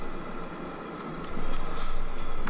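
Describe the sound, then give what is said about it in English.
A car engine hums in a video game as the car drives around the back of a garage. The drone is steady and grows louder about halfway through. “Do I go around the back? I'm driving around the back of the garage.”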